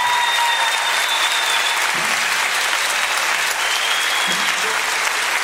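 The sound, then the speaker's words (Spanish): Studio audience applause for a program, a thick, even wash of clapping that continues unbroken across the whole clip. “Otro aplauso para este programa.”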